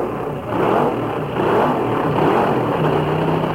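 Fuel dragster engines revving at Half Moon Bay Drag Strip: a loud, continuous, rough mechanical roar that swells slightly in waves, with no voices.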